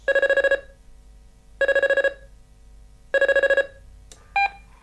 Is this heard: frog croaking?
no